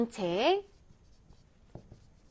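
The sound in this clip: Faint scratching of a pen as a math solution is written out by hand, a few soft strokes following a brief voiced sound at the start.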